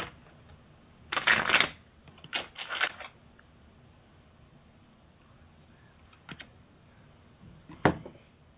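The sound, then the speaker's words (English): A card is drawn from a deck during a card reading: a few brief, quiet papery riffles and flicks, separated by stretches of near silence. “All right, I'm going to pull Love Light. Let's see. One more card.”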